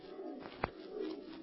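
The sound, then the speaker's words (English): A screech owl's call: a soft, low, hooting trill, faint and brief, with no voices. “Yes, that was just an old screech owl. There it is again.”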